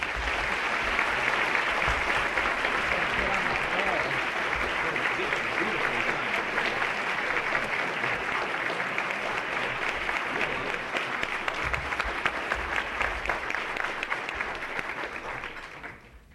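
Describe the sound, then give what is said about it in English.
An audience applauds to welcome filmmaker Ken Burns at a Press Club event. Dense, steady clapping holds at an even level throughout, then drops off at the very end. “So ladies and gentlemen, please join me in a warm Press Club welcome for filmmaker Ken Burns.”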